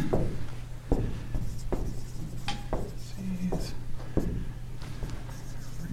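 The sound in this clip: Someone writes on a board, producing a series of scratchy strokes and light taps at an irregular pace.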